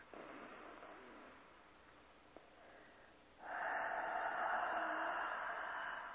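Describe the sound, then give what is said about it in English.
A deep breath in and out, a long airy rush of air that is soft at first and turns noticeably louder and fuller in its second half. “Deep breath in and out.”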